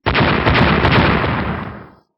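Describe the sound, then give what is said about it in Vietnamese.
A powerful explosion blows a group of soldiers apart: a loud, rumbling roar erupts at once, holds for about two seconds, then fades out. “toàn bộ đều nổ tung ra thành mảnh vỡ.”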